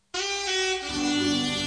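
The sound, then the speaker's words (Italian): A saxophone sounds one loud, sustained, reedy note that drops to a lower pitch partway through. It is heard alone, with no other instruments or voices. “E che è? Non è una tromba, però. Non è un trombone, ma. È una signora tromba. È un bel sax.”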